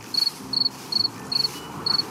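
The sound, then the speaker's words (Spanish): Crickets chirping at dusk in five evenly spaced bursts, each a quick, high, bright trill of a few pulses, ringing out alone over a faint, steady background. “Un viento gélido y el grillar de los insectos del crepúsculo me recibieron al arribar a la estación de policía.”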